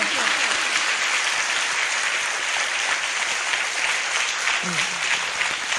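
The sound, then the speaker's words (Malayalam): An audience at a Christian worship gathering claps hands in loud, dense, sustained applause that holds steady throughout without a pause. “കൈയൊക്കെ ഒന്ന് വേദനിച്ചോട്ടെ നന്നായിട്ടൊന്ന് കൈയടിക്ക്”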